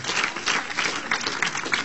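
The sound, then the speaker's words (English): A church audience claps to honor its pastor and leadership, a lively burst of applause that pulses in uneven surges of louder and softer clapping. “To the entire leadership of the bridge, clap your hands, let's honor.”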